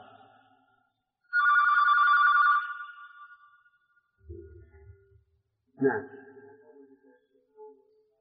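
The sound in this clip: A telephone rings once during a lecture: a bright electronic ring burst lasting about a second, with faint talking afterward.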